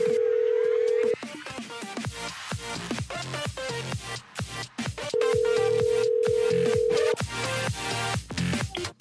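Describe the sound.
A phone call is ringing out on the line. A steady ringback tone sounds for about a second, drops away, then returns for about two seconds, set against a busy, clattering background.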